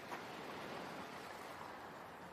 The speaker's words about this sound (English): Waves roll in below her and she takes another photo.